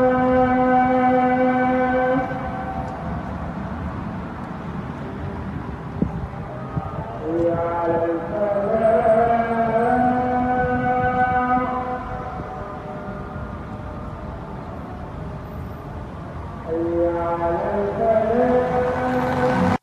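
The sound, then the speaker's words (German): A muezzin's amplified call to prayer: a single male voice sings long, sustained, melismatic phrases that waver and bend in pitch, separated by pauses, over a steady background murmur of street noise. “Dann ruft dir der Muezzin fünfmal am Tag zum Gebet und das hört sich so an.”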